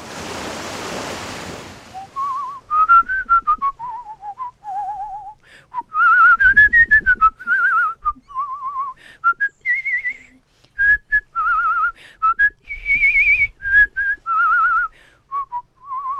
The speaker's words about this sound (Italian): Il vigoroso fischio epico. Che poi è il simbolo del western all'italiana, copiato in tutto il mondo.